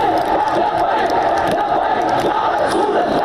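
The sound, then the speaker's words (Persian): Thousands of angry protesters in Pakistan chant slogans against Charlie Hebdo magazine and France. The massed voices keep up a loud, continuous roar without pauses. “در پاکستان هزاران معترض خشمگین علیه مجله شارلی ابدو دست به تظاهرات زدند و شعار مرگ بر فرانسه سر دادند.”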